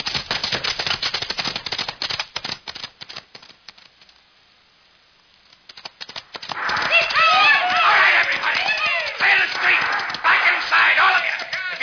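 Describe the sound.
Horses gallop as riders head into town for a holdup. Rapid clattering hoofbeats run for several seconds, fade into a brief lull, then give way to louder, denser noise with voices.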